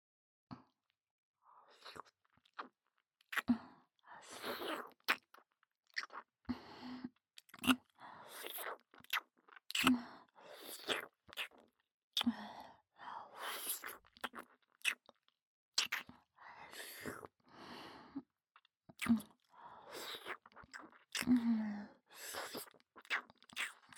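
Wet tongue and saliva mouth sounds: many moist clicks, smacks and slurps in irregular bursts throughout, with no talking.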